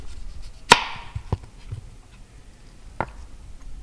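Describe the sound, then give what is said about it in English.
A knife cuts a thin slice of Indiana apple for a cocktail garnish: one sharp crisp chop rings out, followed by a few fainter taps on the board amid quiet background hiss. “And then I'm just going to garnish it with a nice thin slice of an Indiana apple.”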